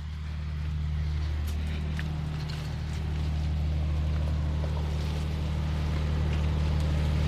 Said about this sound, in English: I can hear the generator going. Would we be able to just go and have a quick peek at it to see what it sounds like up close?